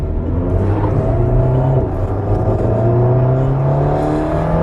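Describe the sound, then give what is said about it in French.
An Alpine sports car sets off on a race circuit for warm-up laps. Its engine gives a loud, continuous drone with strong harmonic tones that shift and climb as it pulls away. “Donc là, ça y est, on est parti sur le circuit au bord de cette Alpine.”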